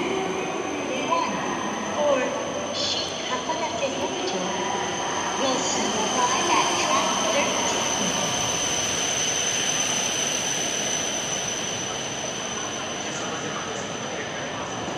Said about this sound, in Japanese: ついに新幹線がね新青森駅のホームに到着しました